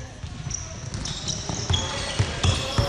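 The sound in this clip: A basketball bounces in a studio. A few dull, low thuds land at irregular intervals under people talking.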